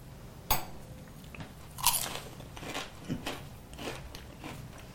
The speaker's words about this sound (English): Okay, so these beautiful little fried beef dumplings with some sugar on top. This is fascinating.